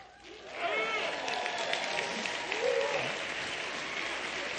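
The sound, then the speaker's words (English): Marines in an audience shouting the Marine Corps call, loud whooping voiced cries rising over a sustained wash of applause and crowd noise. “How many of you know what that was that you heard there? The Marine Corps mating call. That's exactly what it was.”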